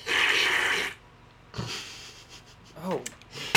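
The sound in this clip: A sharp, noisy inhale as someone accidentally breathes in dry supplement powder containing L-theanine, GABA and vitamin B12. A breathy rush lasting about a second is followed by quieter breaths and a brief voiced exclamation.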